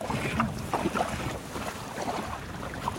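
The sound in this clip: A flat-bottomed boat moves through shallow water about 30 cm deep, making a steady low rush of water mixed with blustery wind noise and a few faint splashes.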